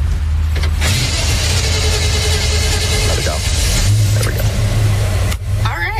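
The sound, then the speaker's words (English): A fully restored 1959 Chevrolet with an automatic transmission runs with a steady, low engine rumble. A few brief clicks and mechanical noises sit on top of the continuous drone. “Sliding behind the wheel of this fully restored 1959 Chevrolet. One of the few classics here with an automatic transmission.”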